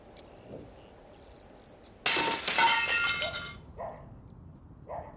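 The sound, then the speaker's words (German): Glass shattering as a stone is thrown through the window of a small village shop: a sudden loud crash of breaking glass lasting over a second, then a few faint tinkling fragments. “Beim größeren schmeiße ich den Stein durch die Scheibe und schlage mit dem Stock die Splitter aus dem Rahmen.”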